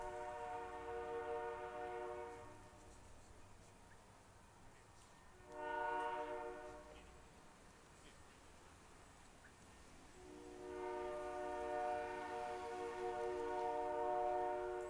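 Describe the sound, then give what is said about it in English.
A train whistle sounding the signal for a level crossing, heard faintly in the far distance: sustained, reedy blasts separated by gaps, over a low background rumble. “Eventually, in the far distance, we hear the L14 whistle, the signal for a level crossing, long, long, short, long.”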